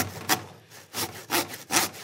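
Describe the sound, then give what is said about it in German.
A pumpkin is sawn with a large 40 cm wooden hand saw in a kitchen: several rhythmic, rasping strokes, each a loud scratchy burst separated by quieter pulls. “Wird gerade Kürbis gekocht, aber gerade erstmal gesägt mit so einer richtig fetten, 40 cm großen Holzhandsäge.”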